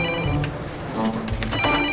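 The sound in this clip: A telephone ringing, a loud, continuous ringtone with bright tonal layers over a busy background.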